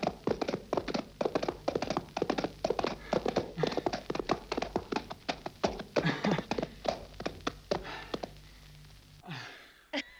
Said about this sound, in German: Sie reiten ihr Pferd zu Schanden.